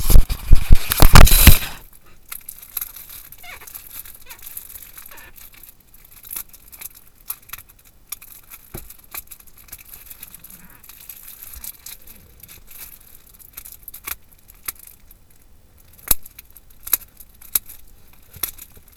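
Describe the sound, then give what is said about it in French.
Plastic film is torn from a Europe pack of cards: a loud, rough ripping burst at the start, then mostly quiet with scattered faint crinkles and clicks. “Donc vous me laissez deux secondes, je vais ouvrir le paquet Europe. Et je vais vous raconter deux, trois cartes.”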